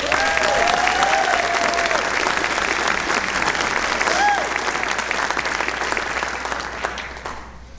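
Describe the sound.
Audience applause welcoming a speaker: dense, steady clapping with a few brief vocal calls over it, holding strong before thinning out and fading toward the end.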